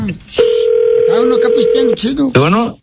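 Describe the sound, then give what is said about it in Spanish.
A telephone dial tone holds one even, steady pitch for about a second and a half, with a person talking over it and voices just before and after. “Está marcando, está marcando, está marcando.”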